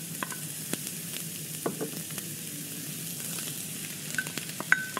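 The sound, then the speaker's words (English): Onion and celery sauté together in a pan with a soft, steady sizzle. Scattered light clicks and scrapes of stirring come through, and no one speaks. “So then we're just gonna saute onion and celery together.”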